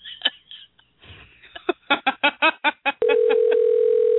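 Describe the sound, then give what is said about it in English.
A landline-style telephone call back begins with a quick run of keypad beeps tapped out in uneven rhythm, followed by a steady, unbroken tone that holds at an even level. “Okay, let's call this other one back because I got to call him.”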